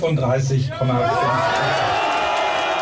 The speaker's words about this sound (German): Das ist, wie gesagt, der Jubel über das schlechte Ergebnis der SPD bei der AfD, die in einer Event-Location bei einem Schweriner See feiert.